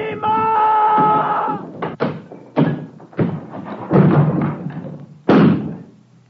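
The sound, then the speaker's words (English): A door is smashed in a series of heavy blows. Several hard, separate thuds and crashes follow a sustained tonal sound at the start. “Smash this door and get away!”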